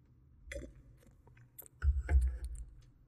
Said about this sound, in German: Ich nehme noch mal einen Schluck, weil der einfach wirklich fein ist.